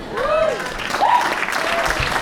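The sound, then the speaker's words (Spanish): Short burst of applause from an audience for a participant, brisk clapping lasting about two seconds. “Aplausos para el participante.”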